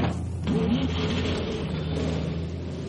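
A car engine revving as a woman learning to drive works the accelerator and clutch to pull away: a short rising whine early on, then a steady mid-pitched engine drone.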